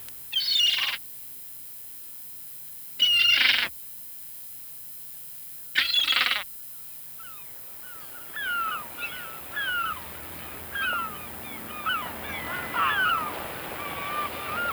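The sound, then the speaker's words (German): Seagull cries: three loud, harsh bursts spaced a few seconds apart, then many shorter, falling calls that overlap more and more into a busy chorus. “Die Schreie der Möwen, so wird erzählt. Auf die Anzahl der Schreie kommt es an.”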